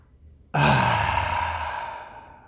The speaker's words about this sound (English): Everybody take a breath with me.